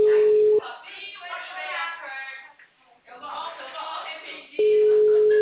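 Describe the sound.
Telephone busy signal: a steady, low electronic tone sounds at the start and again at the end, with voices talking in between.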